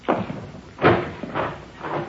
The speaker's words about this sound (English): Here, I'll get the door.